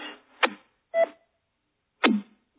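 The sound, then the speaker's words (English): Server alert beeps: a few short, quiet electronic tones separated by silent gaps, each beep sweeping downward in pitch. “If you hear any beeping in the background, that's all my server alerts.”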